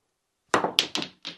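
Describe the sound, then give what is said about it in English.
Snooker balls collide as a red ball is driven into another red, which drops into a pocket. Four short, hard knocks follow one another quickly, and no voices are heard. “He used a red ball to hit another red ball into the pocket.”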